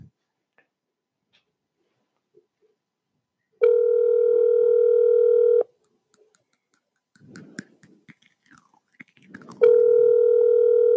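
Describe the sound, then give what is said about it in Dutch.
A telephone ringback tone sounds while a call is placed to someone. Two steady, loud stretches of tone are separated by a quiet gap with soft rustling and faint mouth noises, and the second tone is cut off at the end. “okay, we zitten hem dus even te bellen. Alsjeblieft, neem op.”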